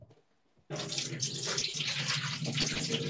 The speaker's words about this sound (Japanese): 米を洗っております